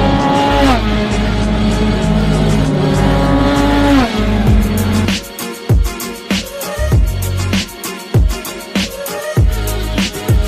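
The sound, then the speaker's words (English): A McLaren GT4 race car testing at the Snetterton circuit roars loudly, its engine note climbing in pitch before dropping, then breaking into a choppy run of many sharp revving bursts. “This is the McLaren GT4”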